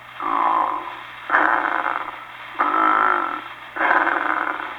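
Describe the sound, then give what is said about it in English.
Bucksaw-type snoring, a rasping, sawing drone that sounds much the same on the in-breath and the out-breath, with four long strokes in steady alternation, loud and with no talk. “We may well take note in passing of type 6, which I have called the bucksaw. It's sounding much the same no matter which direction the breath travels.”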